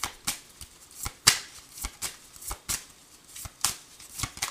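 Tarot cards being shuffled in a quick run of many crisp, papery flicks and riffles at an uneven rhythm, moderately loud, with no voices.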